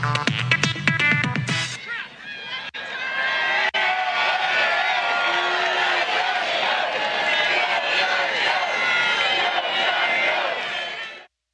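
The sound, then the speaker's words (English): Rally crowd chanting "Joe's got to go": a dense, sustained roar of many voices that holds steady for several seconds after a short burst of music, then cuts off. “The crowd finishes up chanting, Joe's got to go, Joe's got to go.”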